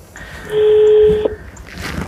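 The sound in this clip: Telephone tone while dialing the traffic control centre: a steady, clear beep lasting under a second, ending in a sharp click, set over a low background rumble.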